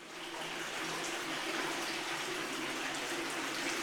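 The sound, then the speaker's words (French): Water rushes steadily through a pump fitted with a strainer filter that sends water on to neighbouring pumps. It makes an even, constant hiss and rush, fairly faint, with no voices. “Ça c'est la pompe avec la crépine.”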